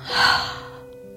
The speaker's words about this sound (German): Noch einmal ganz fest in den Bauch einatmen und wieder ausatmen.